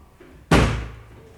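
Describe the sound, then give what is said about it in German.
A heavy wardrobe tipped over during a move lands with one loud, abrupt slam that dies away over about a second, after near silence. “Der letzte Schrank? Ja, Sir. Gott sei Dank. Wir kippen ihn.”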